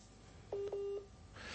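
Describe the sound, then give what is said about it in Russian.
Touch-tone dialing beeps as a phone call is placed to someone in Horlivka: a few short, clear, fairly faint tones, the last held longer, then a soft hiss. “Вот, сейчас повторный вызов будет.”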